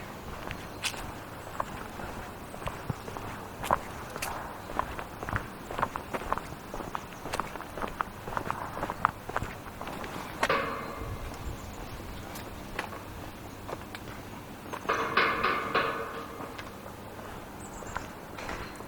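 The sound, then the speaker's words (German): Footsteps walking through a park toward its exit and a turnstile: many steady steps throughout, with a louder burst of sound near the end. “So, jetzt sind wir am Ende des Parks angelangt. Jetzt geht es noch durch ein Drehkreuz und dann war es das erstmal mit dem Favoritenpark.”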